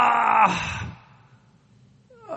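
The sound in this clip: A wordless human groan, voiced as a prayer without words, swells loud and low, then trails off into a long faint exhale before a brief new vocal sound begins at the end.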